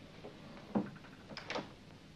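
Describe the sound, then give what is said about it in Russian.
A door is closed, a faint soft thud followed by a couple of light latch clicks in a quiet setting. “Таня подходит к двери и закрывает ее.”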